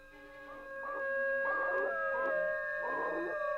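A dog howls while being held by its tail, a drawn-out, wavering tonal cry with a few pulsing bursts that swell and fade, fairly quiet and alone without voices.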